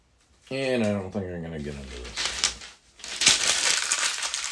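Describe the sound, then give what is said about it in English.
Paper being crumpled by hand: after a brief voice, a loud, dry crinkling rustle runs in irregular crackling bursts with a short pause in the middle. “The sound you hear is crumpling paper.”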